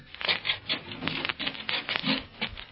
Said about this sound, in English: Come on. Scrape the mud off your feet.